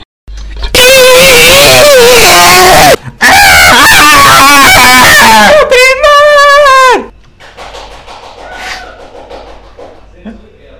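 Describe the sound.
Engine whine and screeching tyres come from an arcade racing video game as the player speeds up and then brakes hard. Very loud wavering, harmonic wails run in long bursts, then a final screech drops in pitch before quieter arcade background noise.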